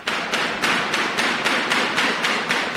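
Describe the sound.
A hammer striking a glass pane in an even run of sharp, bright taps, about three per second, that continues throughout.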